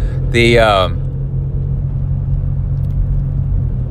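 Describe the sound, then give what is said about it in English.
Deep, steady rumble of a Ford Mustang fitted with loud off-road racing exhaust pipes, droning low throughout, with a brief voice near the start. “we're behind a Mustang with the off-road pipes on it, or racing pipes.”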